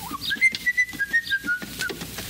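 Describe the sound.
A person whistles a song, the clear, fairly high tone moving through a series of sustained notes separated by short breaks. No talk is heard over it.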